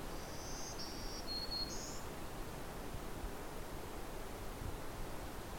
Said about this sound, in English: You can hear the sound of the lake in the background,